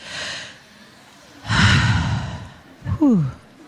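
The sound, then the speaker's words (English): A deep breath: a soft breath at the start, then a long, loud airy inhale, then a short voiced sigh that falls in pitch. No talk over it. “Can we practice that together? Will you do that with me? Can you take a breath with me?”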